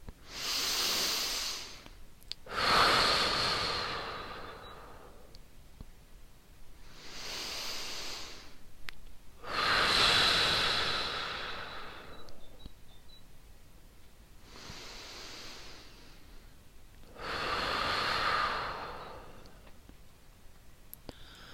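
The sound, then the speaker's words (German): Deep breathing in and out, slow and quiet, with three unhurried cycles. Each inhale and exhale is a soft, airy rush separated by pauses of near silence. “Atme wieder tief ein und aus.”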